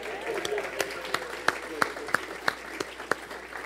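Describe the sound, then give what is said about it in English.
An audience applauds to welcome a guest, with a steady bed of crowd clapping and sharper claps standing out at a regular rhythm. “Gateway, please, let's give her another round of welcome.”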